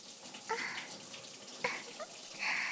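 Water runs steadily from a tap, rinsing something down in a soft, even hiss, with a few light knocks breaking through the flow.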